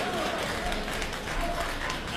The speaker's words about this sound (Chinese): 大家鼓掌，再来一段。